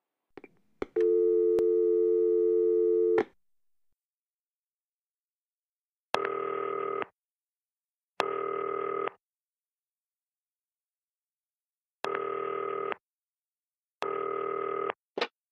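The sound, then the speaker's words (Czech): Telephone tones sound while a call is placed: a soft click, then a steady tone for about two seconds. After a pause come four separate short beeps with silence between them, like a busy signal. “Fajn, tak zavolej Sasky.”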